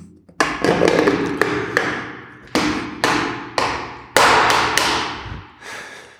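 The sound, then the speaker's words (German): Sharp taps and knocks from opening a paint bucket while preparing to paint walls: a rapid series of many hard, clattering hits with a short pause in the middle, loud and with no talk. “So, jetzt werden wir mal den Farbeimer aufmachen.”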